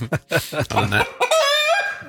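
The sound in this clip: A hen clucks: a few short, sharp clucks, then a longer, drawn-out, tonal call that holds its pitch before trailing off. The calls are loud and close together.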